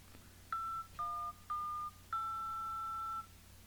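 Telephone keypad dialing tones: four clear beeps, the first three short and evenly spaced, the last held about a second, over faint background hiss.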